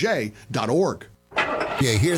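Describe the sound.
Brief cranking and catching of a car engine starting, a short burst of rough mechanical noise that comes between and under a person talking.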